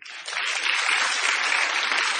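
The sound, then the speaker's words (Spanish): An audience applauds a knife-throwing act. The clapping starts abruptly and holds as a dense, steady roar of many hands. “La gente aplaudía nerviosa y presa del delirio.”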